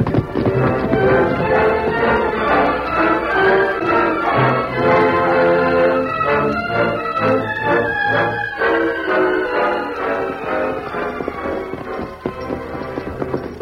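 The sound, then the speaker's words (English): Hoofbeats clip-clop as riders mount their horses, including the Lone Ranger's horse Silver, and ride off toward a ranch in a radio western. The steady rhythmic hoof clatter runs throughout under continuous music. “All right, let's mount up, City. Silver! Come on, Silver! Get him up!”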